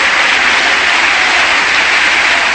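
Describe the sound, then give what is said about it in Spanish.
A church audience applauds, a dense and loud sustained clapping that holds steady throughout with no speech over it. “Le damos un aplauso”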